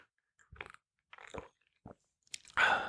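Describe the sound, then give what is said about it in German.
A sip of a drink taken mid-conversation: a few short, wet mouth noises spaced apart, then a louder, sustained breathy rush at the end, with no talking. “warte mal, ich nehme noch mal einen Schluck.”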